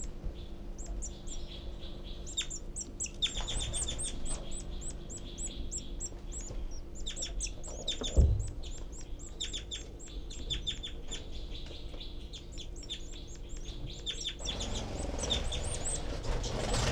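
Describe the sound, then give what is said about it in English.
Baby birds beg loudly in their nest with many rapid, high-pitched chirps repeated in dense bursts, over a faint steady low hum and one brief dull thump midway. “I can see the babies and hear them begging. Their heads are poking way high out in the nest. Loud begging by the babies”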